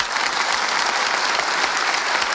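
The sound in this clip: Polite audience applause given on request, a steady, even patter of many clapping hands that holds at a constant, moderate level from start to finish without any swell or cheering.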